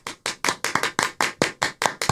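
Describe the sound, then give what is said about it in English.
Clapping sound effect: a quick, fairly regular run of sharp, separate claps, each a crisp percussive burst, about a dozen in a couple of seconds at moderate level. “Hold on, let me get some claps for Bob.”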